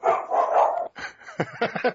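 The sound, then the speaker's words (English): A dog barks in a quick run of loud, short yaps and yips, with some whimpering sounds mixed in. “Sorry. Guys. No warning. Yeah. You totally call, he's like, yeah, my dog's gonna bark, so don't worry, I'll be on it. I'll mute myself.”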